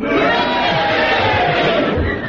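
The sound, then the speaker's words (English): Studio audience at a panel game cheering and booing, a loud sustained roar of many voices blended together, steady for the full stretch and tapering slightly at the end. “If so, will you cheer if you agree with Clement Freud? And if not, will you boo and do it now?”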